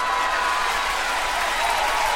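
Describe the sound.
An applause sound effect played on a radio show: a steady wash of crowd clapping at an even, moderate level from start to finish.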